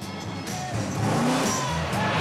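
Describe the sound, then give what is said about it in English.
A car losing grip on snow as it weaves through a snaking bend, its engine droning loud and steady with a wavering, shifting tone throughout. “The car loses grip on the snow and begins to weave from side to side.”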